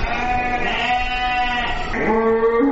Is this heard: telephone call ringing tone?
no